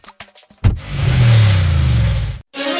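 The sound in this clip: A car engine revs in one loud, sustained roar of about two seconds, rising quickly and holding steady before cutting off abruptly.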